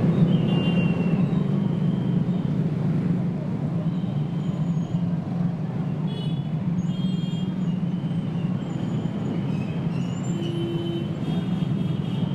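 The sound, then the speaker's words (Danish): Busy street traffic at a Bandung, Indonesia intersection where five roads meet near railway tracks with no traffic lights: a steady rumbling roar of engines, with faint whistle-like tones from traffic directors. “Hvad er de der fløjt? Det er 2, der står og dirigerer trafikken. Det er ligesom sådan et trafikkryds i Bandung.”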